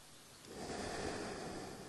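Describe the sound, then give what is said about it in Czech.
A deep, slow breath during a guided relaxation breathing exercise, a soft airy rush that swells after a quiet start and holds steady and even to the end. “Inhale and long exhale.”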